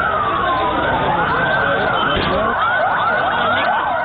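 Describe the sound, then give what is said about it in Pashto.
Ambulance sirens wailing in Lahore as ambulances carry dead and wounded from a strong bomb blast at a crowded park's car park. Several overlapping sirens sweep repeatedly up and down in pitch over a loud, continuous noisy background. “دا د هغو امبولانسونو غږ دی چې په لاهور کې له قوي چاودنې وروسته یې د پیښې له ځایه مړي او ټپیان انتقالول.”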